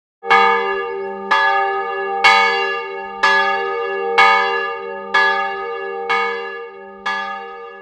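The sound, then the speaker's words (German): Eight evenly spaced strokes sound from a small tower bell in Schaffhausen, rung by hand every evening at 9 pm. Each strike is bright and clear, with a sustained ringing hum that fades just before the next stroke. “So klingt es, das berühmte Monatglöcklein. Jeden Abend um 21 Uhr wird dies von mir als Monatwächter oder von meiner Frau auch heute noch von Hand geläutet”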